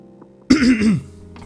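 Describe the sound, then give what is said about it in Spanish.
A single throat clearing from a person reviewing a book, a short rough rasp lasting about half a second. It is loud against an otherwise quiet background. “hasta por eso carraspié la garganta, para encontrar las palabras perfectas”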